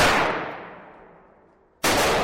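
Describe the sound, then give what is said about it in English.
Gunshots ring out at a shooting range in East Dundee, Illinois. A loud shot fades in a long, smoothly decaying tail, then a second sharp, loud shot cuts in abruptly near the end. “Those shots you hear are being fired in a shooting range operated by Gat Guns in East Dundee.”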